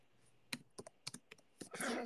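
Typing on a computer keyboard: a faint, quick, irregular run of individual key clicks that ends in a denser flurry of keystrokes.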